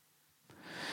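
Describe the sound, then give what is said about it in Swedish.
A deep breath drawn in: silence, then a sudden soft airy rush that begins halfway through and swells steadily louder to the end. “Så hörde jag att du tog ett djupt andetag också.”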